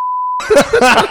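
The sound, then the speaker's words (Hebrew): A single steady censor beep holds one pitch for a moment, then cuts to voices with what may be laughter. “האם זה ידרוש ביפ? כן, זה ידרוש ביפ.”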